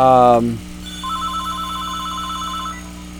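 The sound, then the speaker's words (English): Electronic ringtone of a phone ringing, a warbling trill held for nearly two seconds over a steady higher tone, following a brief voice at the start. “I'm trying to figure out how to mute this phone. I get one of these phones and I don't know how to mute it.”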